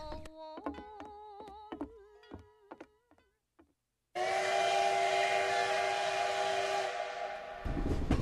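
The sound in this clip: A steam train whistle at a railway station gives one long, loud, steady blast with a breathy hiss. It ends in a burst of hissing steam and follows a stretch of softer tonal notes.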